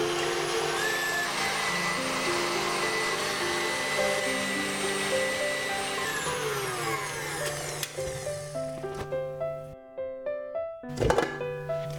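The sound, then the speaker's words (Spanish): A blender runs at maximum power blending strawberry purée, a steady whirring motor drone with strong tonal hum that turns choppier and pulsing in its final seconds, briefly dipping before surging again. “y el puré de fresas. Y batir a máxima potencia unos minutos.”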